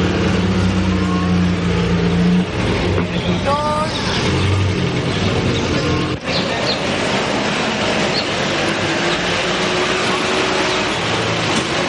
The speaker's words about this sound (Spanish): El coche fúnebre entra y el otro aparca